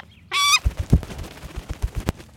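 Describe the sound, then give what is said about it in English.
A person clucks to call a trained bird to food offered on a raised glove. A brief tonal call comes first, followed by a quick irregular series of soft clicking clucks. “If I cluck, I don't lie to him, there's 100% food.”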